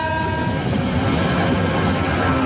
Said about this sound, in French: Mais oui, on va s'arrêter, il y a un train. Mais... On entend le train.